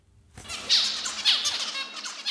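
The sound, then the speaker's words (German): Zebra finches chirping: many rapid, high-pitched chirps and squawky calls that overlap in a busy stream. “Das sind Zebrafinken. Ihr Nachwuchs belauscht das Gezwitscher schon im Ei.”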